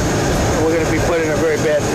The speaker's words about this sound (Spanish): No se escucha bien por el sonido del avión